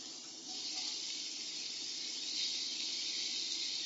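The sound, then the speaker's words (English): Sizzling of mushrooms frying in a very hot pan: a steady, continuous hiss that stays quiet and even throughout, with no voices. “Again, I'm going to add them in two batches, especially with mushrooms because they tend to go very watery very quickly. Very hot pan.”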